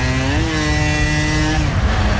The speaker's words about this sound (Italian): Ancora in moto arriva. Un altro. È bello andare in giro con la Vespa